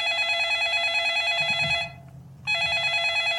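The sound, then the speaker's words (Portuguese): A telephone rings with a bright, steady trilling bell: one long ring, a short pause, then the ringing starts again. “ó o telefone, homem, atende aí”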